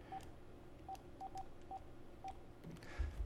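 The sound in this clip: Telephone dialing tones sound as a call is placed. A handful of short, clipped touch-tone beeps come at irregular intervals, faint against a low background hiss, and a soft low thump follows at the end.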